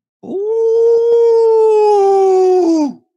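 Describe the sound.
A man imitates a wolf howl as a hunting call. One loud sustained tone of nearly three seconds holds a steady pitch, then drops away at the end, with nothing else heard.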